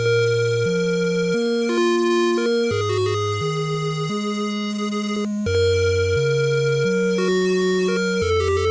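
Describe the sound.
Music from the 1988 Legend of Zelda video game: a loud, steady electronic melody of bright, buzzy sustained tones over a bass line that steps between held notes, with no voices.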